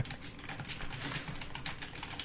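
Typing on a computer keyboard: a quick, faint clatter of many keystrokes in an uneven rhythm, heard on its own without voices.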